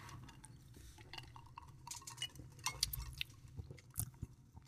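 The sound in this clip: Ice cubes clinking inside a drinking glass during a toast: a few faint, sharp, bright clinks scattered irregularly over a quiet, rustling background.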